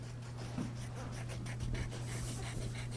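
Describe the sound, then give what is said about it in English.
Faint scratching of pencils on paper as about 30 schoolchildren doodle and sketch at a drawing workshop in the Douglas Public Library, with a few soft strokes over a steady low hum. “About 30 schoolchildren doodled and sketched away at Kibuishi's drawing workshop on Saturday at the Douglas Public Library.”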